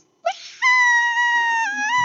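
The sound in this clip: A voice imitates a hungry newborn baby crying: a brief sob, then one long, steady, high-pitched wail held to the end without any talk.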